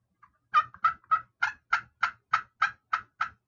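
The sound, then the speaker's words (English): Turkey clucks made as a spring turkey hunting call: a steady series of about ten short, sharp, evenly spaced clucks, fairly high-pitched and alone, with a softer note at the start. “like to me, that's perfect clucking, you know. You can do higher pitched ones.”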